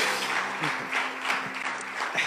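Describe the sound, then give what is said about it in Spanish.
Applause from a church audience: steady, dense clapping from many hands that runs evenly through the whole clip at a fairly loud level. “Y si estás contento, puedes dar una vez más un aplauso en esta tarde.”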